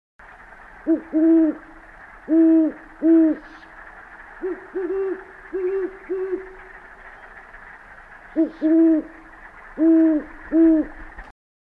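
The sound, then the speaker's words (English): Great horned owl hooting: a long series of deep, soft hoots that mostly come in pairs. A quieter run falls in the middle, and there is faint background hiss between the calls. “You may hear the stealthy great horned owl late in the afternoon. They sound like this.”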